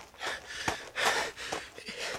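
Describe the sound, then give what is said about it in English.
Heavy panting from a man out of breath after running to a garden tomb: several harsh, rapid breaths in quick succession, fairly loud, with no speech over them. “John and Peter, their hearts pounding, ran all the way to the garden tomb. John got there first, out of breath, and looked inside.”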